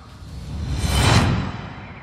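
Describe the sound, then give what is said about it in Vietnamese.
A cold gust of wind whooshes past as an audio drama effect, a single airy swell that rises to a loud peak midway and then fades away, heard alone. “Cao Biện vung phất trận lên một phát, lập tức đã xuất hiện một cơn gió lạnh khủng khiếp ập tới.”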